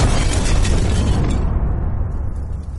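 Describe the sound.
A self-destruct explosion sounds as a loud, dense roar of rumbling noise. It holds steady for over a second, then gradually thins out and fades.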